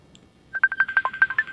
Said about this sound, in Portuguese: Vejamos, deu uma falha aqui ao completar a ligação.